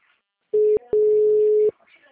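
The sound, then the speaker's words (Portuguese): A ringback tone on an outgoing telephone call, a steady mid-pitched tone heard in two bursts, a short one then a longer one, separated by a brief gap. “Ligar pra ela de novo.”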